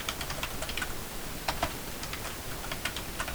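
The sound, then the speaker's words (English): Many light, quick clicks from typing on a computer keyboard run in a steady, uneven patter, alone and fairly faint. “I'm going to type in the email address I want to use.”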